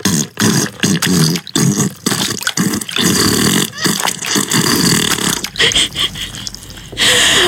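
Fart sound effect, a rapid string of many loud, wet, sputtering bursts separated by short gaps, continuing without talk.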